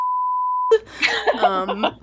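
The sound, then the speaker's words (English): A censor bleep covers a spoken name: one flat, steady electronic tone lasting well over half a second, alone at the start. It cuts off sharply, and a voice begins talking right after. “I'll say it and then maybe we'll bleep it out.”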